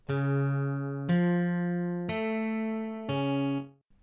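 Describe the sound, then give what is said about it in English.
Four sustained electronic tones, each lasting about a second, step in major thirds. Each is clean and harmonically rich, changing abruptly to the next before the last one fades out. “But if you went in 3 steps, it would happen in major third. So that would sound like this.”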